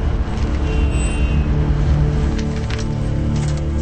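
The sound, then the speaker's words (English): Steady, loud low rumble of slow, crawling road traffic at a tunnel entrance, a continuous drone of engines without breaks. “The tunnel entrance. Traffic is crawling.”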